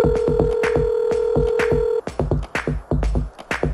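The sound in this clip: A telephone being dialled: a steady dial tone with rhythmic clicks, then the tone stops and the quick clicking bursts of the dial carry on.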